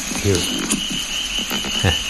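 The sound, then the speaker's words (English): Frogs croak outside after a rain front, giving a few rasping, ratchet-like calls over a steady high whine of singing insects. “There's my mate, one of my mates, the frogs, yeah.”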